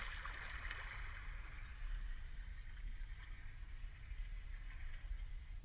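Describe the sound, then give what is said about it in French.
Sea water washes softly at the shore, a faint, steady rush with a light gurgling texture and no voices. “On prend le temps de laisser partir doucement la mer.”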